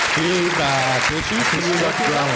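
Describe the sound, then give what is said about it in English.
An applause sound effect played from an app during a live show: a steady bed of clapping that runs under people talking. “I'm going to pad my applause there with a little bit. Neil, it's a live show. You don't need to fake applause. No, I'm going to add a little bit.”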